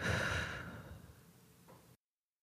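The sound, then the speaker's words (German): A slow, deep breath, soft and airy, dominated by one long exhale that fades gradually, with no talk. “Setz dich bequem hin, schließe die Augen und atme ein paar Mal tief ein und aus.”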